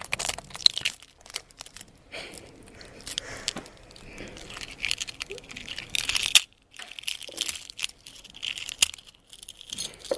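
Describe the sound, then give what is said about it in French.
Eggshell cracking and breaking as an egg hatches in a museum, a long run of many irregular crackles, crunches and sharp snaps, fairly faint overall with a few louder cracks and no talk. “On entendit les craquements de l'œuf se briser.”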